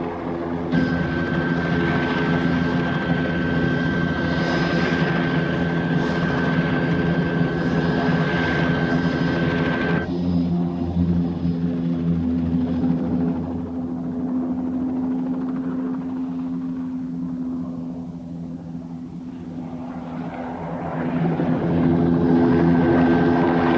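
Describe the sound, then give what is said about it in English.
A helicopter combs an area of sand dunes in a search: a steady rotor drone with a high engine whine for the first ten seconds. The whine then drops away, the sound fades for a few seconds and swells loudly again at the end. “As Mike and the others hide behind a dune, the helicopter combs the area.”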